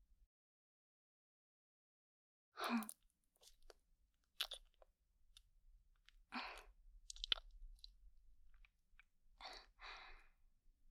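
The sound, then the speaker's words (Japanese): Close, faint mouth sounds of someone licking and sucking on a hard candy, with irregular wet clicks and crunchy smacks after a silent start. “おいしい。あ、すいません。飴を舐めるとリラックスしてしまうもので。”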